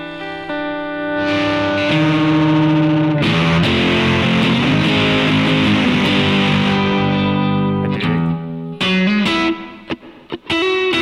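An electric guitar played through an overdrive pedal, gain near two o'clock, with its volume knob rolled: thick, distorted sustained chords ring for long stretches, then break into shorter stabs and dips in level toward the end.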